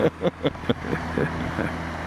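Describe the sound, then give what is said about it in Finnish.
A Venho motorboat passing on the Koljuvirta river gives a low, steady engine drone with a humming tone, preceded by a few short louder bursts. “Sieltäpä tulee joku Venho. vene. Venho menne.”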